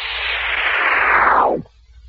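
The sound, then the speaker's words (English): A rocket ship landing: a loud, broad rushing whoosh that holds steady, then sinks in pitch and stops abruptly after about one and a half seconds, leaving near silence. “I see a rushing sound. Why, it's a rocket ship bearing down on us. It's going to land.”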